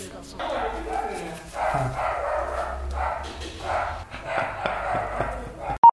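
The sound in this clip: A dog barks and whimpers in several bursts, its yelps rising over what seem to be voices, and a short sharp tone sounds at the very end.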